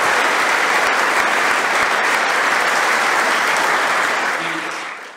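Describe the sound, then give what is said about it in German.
Dense, steady applause from an audience welcoming someone being introduced stays loud and even throughout, then fades away at the end. “Applaus”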